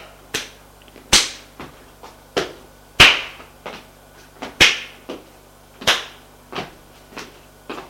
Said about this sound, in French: Elle leur donne une tape à chacun.